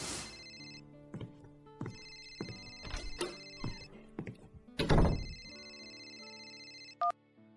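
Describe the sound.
A telephone rings with steady, repeating electronic tones. A few dull knocks and clicks are mixed in, and a short, higher beep sounds near the end.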